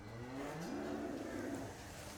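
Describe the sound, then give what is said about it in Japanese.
Faint, low lowing of cattle in a cowshed on Ishigaki Island, where rows of cows are eating grass; a soft, drawn-out moo wavers gently over a quiet background with no voices. “もう牛たちが整然と並んで、はい、もりもり食べてますね、はい、草を。”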